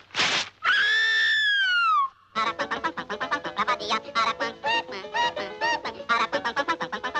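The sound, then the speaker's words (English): The peculiar song of the Araucan bird: a shrill screech, then a sliding whistle that falls in pitch, then a long run of rapid, scratchy chattering calls. “Now, he's called the Araucan because of the peculiar song he sings, which sounds something like this.”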